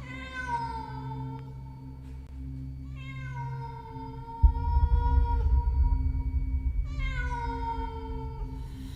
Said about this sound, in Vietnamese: Ngoài cửa sổ, từ bao giờ vọng lại tiếng mèo hoang kêu lên giữa đêm trường tịch mịch, nghe đến não nở lòng.